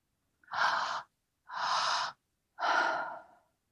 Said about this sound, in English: feeling into the quality of your exhale as we breathe like this. Your exhale, we want to just let it fall.